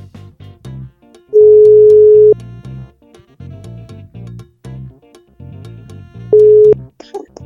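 Telephone ringback tone heard while placing a call: two steady mid-pitched tones about five seconds apart over background music.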